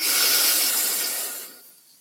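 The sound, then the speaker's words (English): A slow breath sounds as a soft, airy hiss that stays steady and then fades away over about two seconds, with no voices. “You're going to breathe in. You're going to let it go. And then pause.”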